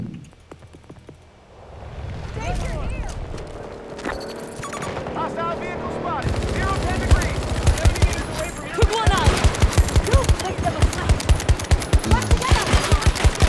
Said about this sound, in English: Oh, why did you shoot that? You jackass. He shot the fucking barrel.